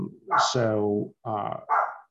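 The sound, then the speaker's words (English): Dog barking, a few sharp yappy barks mixed in with a person talking, the barks fairly loud and close together. “Sorry about the barking.”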